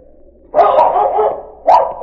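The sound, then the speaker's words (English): A dog barks inside a deserted mine tunnel in two loud bursts, the first drawn out over about a second and the second short. Both sound full and resonant against a quiet background. “Ned entered the tunnel to find Shag barking in a small opening inside.”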